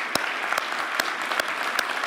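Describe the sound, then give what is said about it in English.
Audience applause: a steady, dense patter of many hands clapping, with a few sharper claps standing out and no voices. “So let's give them another hand.”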